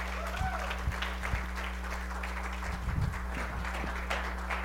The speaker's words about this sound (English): So would you put your hands together with me this morning and welcome Pastor Rick as he shares the word.